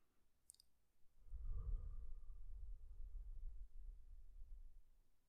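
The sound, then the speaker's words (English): A slow, deep breath drawn in through the nose and let out through the mouth, heard as a soft, low, airy rush lasting several seconds, preceded by a faint click. “inhale through the nose, exhale through the mouth as if you're blowing out a candle. Then I'm going to hand it over to Nick for a brief awareness practice, and then we'll jump into the show. All right, 3, 2, 1, take the first deep breath.”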